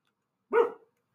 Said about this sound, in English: I apologize for the dog barking again.